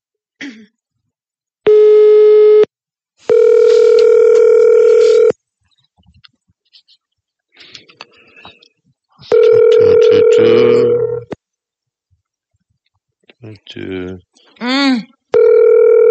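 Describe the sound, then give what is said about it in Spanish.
Telephone ringback tone of an unanswered call to a listener: three long, steady buzzing tones separated by silent gaps, with brief throat-clearing and voice sounds in between and toward the end. “Intentamos llamarlo.”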